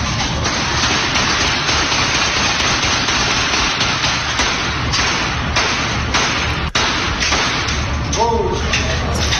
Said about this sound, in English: They're in a indoor rifle range of some sort, and they're firing off a lot of bullets in one direction.